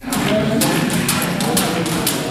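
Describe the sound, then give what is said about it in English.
A jump rope slaps against a gym floor at a juvenile correctional facility as about a dozen young men warm up, with sharp, evenly spaced smacks repeating over a steady wash of background noise. “A jump rope slams against the gym floor at the Circleville Juvenile Correctional Facility in central Ohio as about a dozen young men warm up and stretch their arms.”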